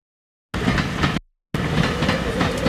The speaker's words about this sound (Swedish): Det är snöstorm i Memphis när tåget The Tenetian rullar in på stationen.